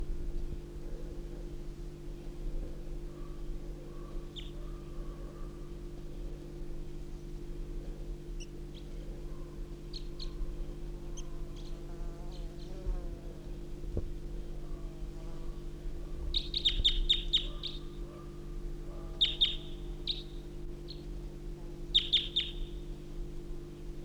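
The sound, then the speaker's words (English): A male crossbill sings from a small juniper beside a truck, with wild birds singing further off: a few faint clusters of high chirps and softer lower calls over a steady low hum. “I hear wild birds to the east singing. I hear a male song of a crossbill.”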